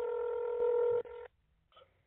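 Telephone line tone after a caller has hung up: a loud, steady electronic beep of just over a second, then after a pause a fainter short beep.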